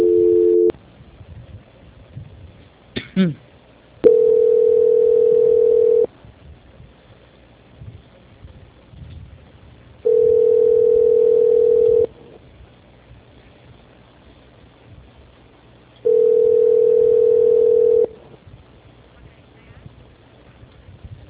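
Telephone call transfer tones on a phone line: three long, steady, mid-pitched beeps of about two seconds each, separated by several seconds of faint line hiss. A short tone opens the call, and a brief chirp comes just before the first beep.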